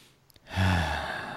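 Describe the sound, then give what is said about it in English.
A single deep breath drawn in slowly, a soft airy rush that swells and then holds steady for about a second, with no talk over it. “Let me take a deep breath real quick.”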